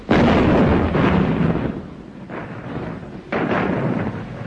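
Heavy booming gunfire from naval guns: a few loud blasts, each trailing into a long rumbling roar, following one another with no voices over them.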